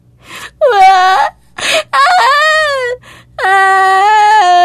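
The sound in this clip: A frightened five-year-old girl cries in a dark room after the lights suddenly go out. Three loud, high, quavering wails are each preceded by a sharp gasping breath.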